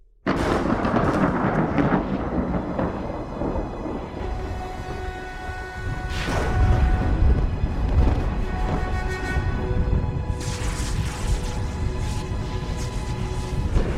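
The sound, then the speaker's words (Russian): Thunder in a night storm with lightning rumbles without pause for fourteen seconds, surging louder around the middle and again later, over a sustained tonal drone. “В черном небе мигает молния. Тучи сгущаются в небе.”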